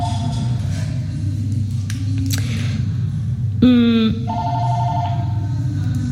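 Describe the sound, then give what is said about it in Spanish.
Electronic telephone ringing signals an incoming call on a prayer call-in program: short tonal ring bursts, with a brighter, buzzier ring in the middle, over a steady low background hum and no talk. “ahí está la primera llamada, voy a recibirla.”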